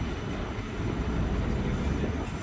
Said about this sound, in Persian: هم بریم توی تراموارم ببینید که تراموایی که رایگانه و از تراموای ویان به مراتب بهتره